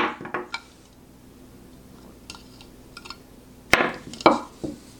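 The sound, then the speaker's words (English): Hard plastic food-chopper parts and blades, made of BPA-free Tritan plastic, are handled. A few sharp clicks and light clatters come at the start, then faint taps, then louder knocks near the end, with no talking. “This is plastic, BPA free, American Triton material, it says. All right, so you have the different blades.”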